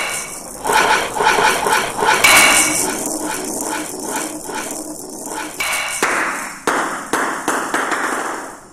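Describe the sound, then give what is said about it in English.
Table tennis ball hits in a video game played against the computer: many sharp, bright clicks and taps in quick, uneven succession, with a steady busy backdrop throughout. “Computer shot the ball out of the table. The points are now 3-7. Your serve.”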